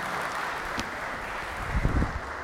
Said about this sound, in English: But before we do that, let's give the lads a round of applause.